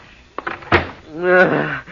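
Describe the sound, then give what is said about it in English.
A door being shut against a storm outside: a light click, then a sharper, louder thunk as it closes, followed by a brief trailing sound. “Close the door”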